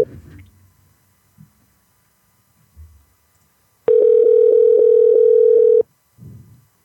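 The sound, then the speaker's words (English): A telephone line rings on an outgoing call: a single loud, steady ringing tone lasting about two seconds, with faint scattered sounds before and after it. “We're calling this person.”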